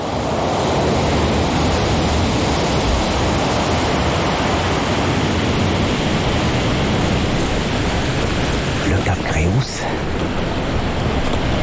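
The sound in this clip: Mediterranean sea waves where the Pyrenees run into the water make a loud, continuous roar of surf with no clear breaks, briefly disturbed near the end.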